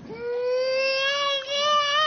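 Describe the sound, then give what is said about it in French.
A little girl of about two cries after her father leaves, a high, sustained wailing sob in two long drawn-out breaths with a slightly rising pitch and no talk. “La petite fille a vu son papa partir, voilà, elle se met à pleurer.”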